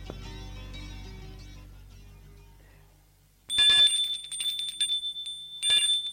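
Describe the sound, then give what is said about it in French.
An apartment doorbell rings: after a fading tone and a quiet pause, a shrill, high metallic ringing sounds in two bright bursts. “Une fois qu'il a signé le bail et a les clés, il sonne chez Xavier.”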